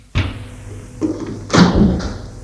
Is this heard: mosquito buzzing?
no